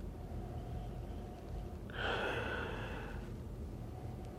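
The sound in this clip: A single nasal sniff as someone noses a glass of whisky: a breathy hiss of about a second, moderately loud over a steady low background hum.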